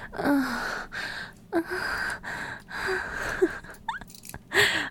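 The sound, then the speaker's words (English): Ragged, choked gasps from a person whose throat is being squeezed, repeating several times with breathy rasps and brief strained, squeaky voiced catches between them. “There, gasp for me, cry for me, mortal.”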